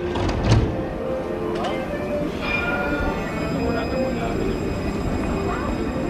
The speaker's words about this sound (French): Voilà, donc là j'arrive, j'ai pris le TGV pour Grenoble